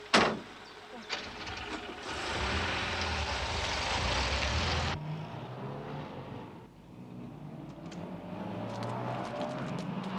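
Car driving along with the steady roar of engine and road noise, loud and continuous for most of the stretch, opening with a brief sharp burst and dipping briefly before rising again.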